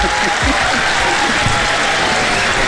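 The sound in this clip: Audience applause at a group sing-along event, a dense, loud, steady clatter of many hands clapping throughout.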